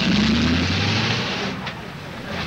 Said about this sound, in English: Outside, the cab drives away.